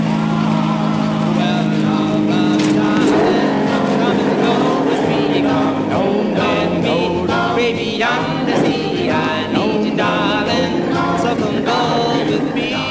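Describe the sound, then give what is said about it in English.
An old car driving, its engine holding a loud, steady, rough droning rumble throughout with slight surges in intensity. “Takes a lot of strength to depress this clutch. This car can get away from you.”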